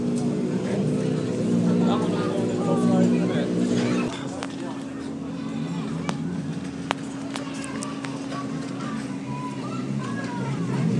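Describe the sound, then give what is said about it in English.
A Ford Fiesta rally car's engine gives a continuous deep rumble with a steady droning tone in a rally service area. Background voices are heard throughout, and the noise drops slightly in level partway through. “So this is the sound of Petter Solberg's Ford Fiesta. Nice deep rumble there.”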